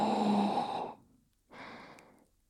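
A slow, deep breath drawn in during a relaxation exercise with aroma: a long, airy hiss, then a short pause and a second, softer breath sound.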